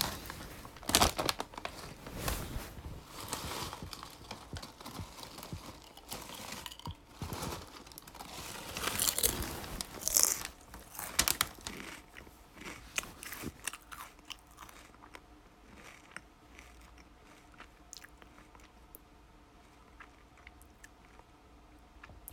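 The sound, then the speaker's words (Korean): Snacks are crunched and chewed in many faint, crisp bites and irregular clicky crackles. The sounds come thick and busy at first, then thin out and grow quieter toward the end, with no talking. “과자 좀 과자 조금 먹을게요.”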